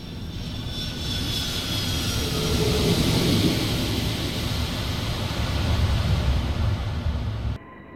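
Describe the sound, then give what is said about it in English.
An airplane comes in to land at an airport with a loud, steady engine roar. The roar swells slightly midway, stays strong throughout and then cuts off abruptly just before the end. “Brace for landing.”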